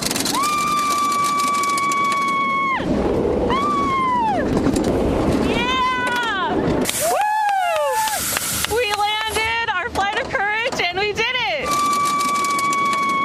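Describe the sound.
A two-minute amusement park thrill ride in California, towering 13 stories and reaching 58 mph, roars with constant rushing noise while a rider lets out repeated rising and falling screams and shouts, with talking mixed in.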